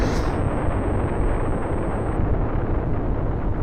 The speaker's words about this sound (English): But then the whole habitat explodes and takes that with it.